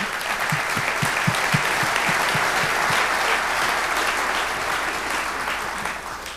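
Applause from an audience for an aviator: dense, steady clapping that holds at an even level from start to finish, with the first few claps standing out separately at the beginning.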